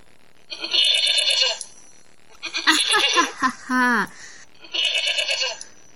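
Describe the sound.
Sheep bleating comes in a few nasal, wavering bursts separated by short pauses. One bleat in the middle is lower and more tonal than the rest.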